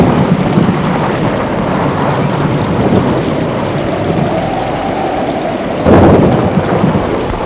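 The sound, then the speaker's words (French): Thunder rolls in a steady, heavy rumble over constant rain, loud throughout, with a sharper burst of thunder near the end. “tonnerre.”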